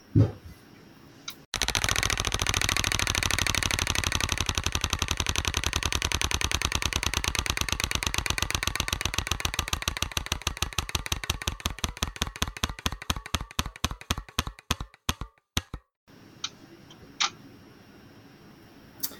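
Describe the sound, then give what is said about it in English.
A roulette-style wheel spinning, its pointer ticking rapidly and loudly, then the clicks gradually spread out into sparse ticks before stopping, followed by a few faint sounds and no talk. “Let's move to a new card. All right, here we go. Spinning the wheel again.”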